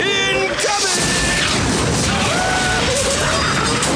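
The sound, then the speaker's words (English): A tank round explodes into a prison cell, making a dense, continuous crashing roar that stays loud throughout, with scattered whistling tones and debris-like clatter running through it. “What a mess! I spend all day tidying up my cell, and some inconsiderate mischief maker fires a tank round into it.”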